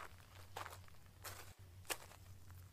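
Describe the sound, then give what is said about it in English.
Footsteps of men walking toward a garden: a few faint, soft steps spaced out over a steady low hum. “The two mice watched as the men continued to walk towards a garden, passing by the mice without ever noticing them.”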